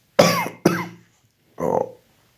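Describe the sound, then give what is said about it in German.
A hospital patient coughs painfully: two sharp, harsh coughs close together, then a pause and a third, softer, rougher burst, alone and fairly quiet. “das Husten tut immer noch weh”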